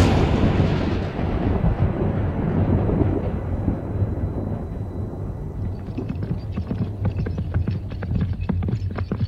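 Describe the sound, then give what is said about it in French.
Rumbling thunderclaps from a magically summoned storm roll continuously and loudly. A dense low roar opens the sequence and eases slightly, then gives way to a run of sharp crackling bursts in the latter half. “déclencher, quand ils le souhaitent, des orages, des tempêtes et de gros coups de tonnerre.”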